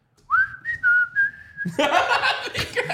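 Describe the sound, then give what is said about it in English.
A person whistles a theme-song tune, a few clear, sustained notes in a short phrase, followed at once by a burst of laughter. “just start whistling a theme.”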